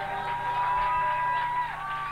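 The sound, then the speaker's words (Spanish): A live audience roaring: loud, sustained cheering and crowd noise that continues without a break, with some steady tones mixed in. “El público que rugía, el público presente.”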